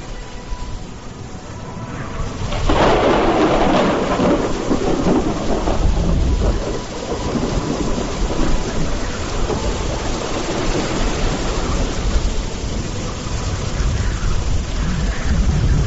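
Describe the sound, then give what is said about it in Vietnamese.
Heavy rain pours down in a dense, steady roar that swells in after the first couple of seconds and then stays loud and unbroken to the end. “Mưa to tới mức dường như muốn xuyên thủng kết giới quanh mỗi người.”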